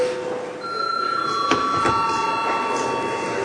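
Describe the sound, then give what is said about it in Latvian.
An electric bell rings in a parliament chamber to call deputies to registration, a sustained, bright ringing tone held for the whole moment, with a few faint clicks in the background. “Lūdzu zvana, lūdzu deputātu reģistrācijas režīmu.”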